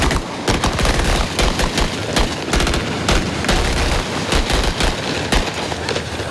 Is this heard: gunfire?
yes